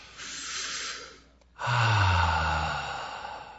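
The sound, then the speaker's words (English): A group takes deep cleansing breaths together, led from the front. There are two long, airy breaths, and the second is louder and fuller, with a low rough edge as it tapers off. “Let's all breathe together. Come on, deep cleansing breaths.”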